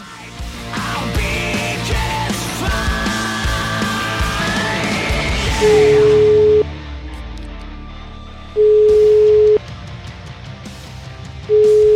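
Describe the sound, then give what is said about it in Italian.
Telephone ringback tones while a call is being placed: after a loud, busy stretch of sound fades out, three long, steady, low-pitched tones follow at a regular interval of about three seconds. “Io chiamerei però a questo punto la signora Donato a Palermo, a Mondello”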